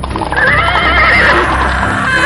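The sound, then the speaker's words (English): A horse whinnies loudly and at length as its horse-drawn wagon barrels through a dark forest, the shrill neigh riding over a steady rumbling din. “It's dark. Suddenly a wagon is barreling through the forest. And suddenly...”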